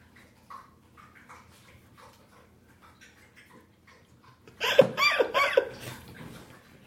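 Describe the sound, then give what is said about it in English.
A thirsty pet drinking water: faint, scattered wet sounds at first, then a louder stretch of quick slurping and clicking laps that fades out. “She's not snoring. Yeah, she's just thirsty. I want to see how long she'll drink water.”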